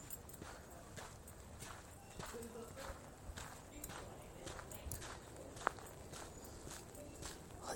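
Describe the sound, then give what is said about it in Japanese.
Footsteps of a person walking outdoors on a road after leaving a park: steady, even paces at a relaxed walking rhythm, faint throughout, with a voice talking over them. “歩いて歩いておりますこれ”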